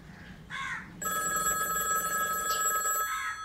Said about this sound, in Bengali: পরদিন সকালে যখন টেলিফোনটা বাজলো